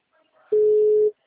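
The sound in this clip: Telephone tone of a call ringing out, a single flat, mid-pitched beep lasting about half a second that stands alone against near silence.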